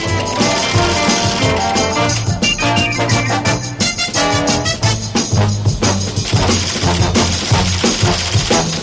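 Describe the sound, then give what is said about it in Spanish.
The theme tune of a British television series plays as loud, dense full-band music. A driving beat of busy percussion runs under strong bass and bright layered instruments, with no voices. “Esta es la sintonía que nos pides de la serie británica UFO.”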